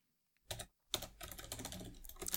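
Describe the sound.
Fingers type on a computer keyboard to take notes. A short burst of clicks comes first, then after a brief gap a dense, continuous run of quick, faint keystrokes follows.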